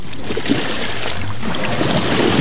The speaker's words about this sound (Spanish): así, arrullados por las olas del mar